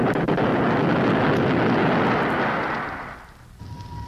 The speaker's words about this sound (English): We're about to make our landing. We fire our retro rocket to resist the pull of the moon's gravity.